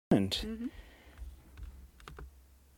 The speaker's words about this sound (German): Dann drücke ich hier mal auf Stopp.